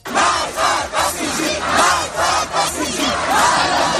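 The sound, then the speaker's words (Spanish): Protest crowd in Iran after the death of Mahsa Amini, many voices chanting together in loud, repeated rhythmic bursts that swell and dip in a regular pattern. “Son algunos de los sonidos tras las protestas que se produjeron, y es que su muerte supuso un antes y un después en la lucha de los derechos humanos en Irán”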